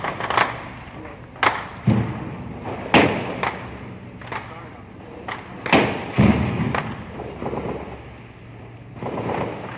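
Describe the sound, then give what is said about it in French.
Gunfire from street fighting involving marines: many sharp, booming reports at irregular intervals, some louder and closer-sounding than others, over a continuous low rumble. “Et sur qui tire-t-on là en ce moment Je ne comprends pas qui tire sur qui là.”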